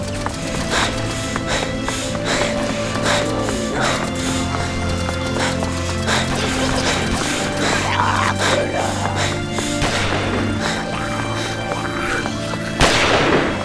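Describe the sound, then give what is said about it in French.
Gunfire in a shootout: many sharp cracks scattered through a loud, busy background of clatter and movement, continuing throughout. “Arrêtez de tirer! Mettez-vous à l'abri et lâchez vos armes.”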